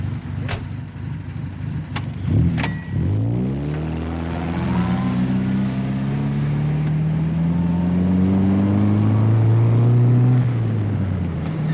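A few sharp clunks, like car doors shutting, then a car engine pulls away and accelerates, its droning pitch climbing in steps as it drives off from the edge of a city on the road from The Hague toward Amsterdam.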